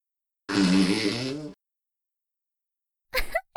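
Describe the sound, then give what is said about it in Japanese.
A fart: one long, loud, buzzing blast of about a second. After a silent pause comes a shorter, sputtering burst near the end. “はしたない音でごめんなさいね。プレイの前日は焼肉とニンニクで精力つけてるからすっごい臭いかも。”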